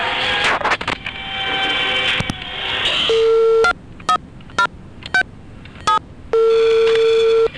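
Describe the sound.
Telephone line sounds as an office call is transferred: a few short tone bursts separated by pauses, then a longer steady ringing tone, following a stretch of noisy line hiss.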